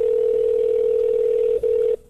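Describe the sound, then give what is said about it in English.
A telephone dial tone sounds while a call is placed: a steady, single-pitched hum that runs unbroken for most of two seconds, dips briefly near the end, then cuts off. “Let's see if we can get him on the phone. See if he'll even answer it. Is my phone through the board now? Should be.”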